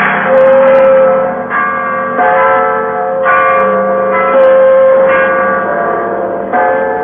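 Church bells peal steadily, several bells struck in overlapping succession so their bright ringing tones blend into a continuous, loud wash with no voices.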